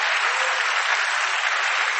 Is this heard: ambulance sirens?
no